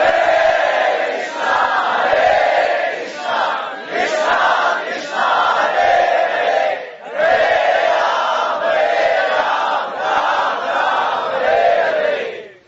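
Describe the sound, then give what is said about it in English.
Many voices loudly chant the holy name in a fervent devotional chorus, repeating rhythmic phrases in two long stretches separated by a brief break. “And it was in this spirit that they were loudly, with great feeling, crying out the holy name.”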